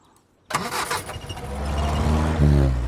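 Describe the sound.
Car engine starting with an abrupt cranking burst after a moment of quiet, then catching and running as a low, rumbling drone that grows gradually louder and fuller toward the end.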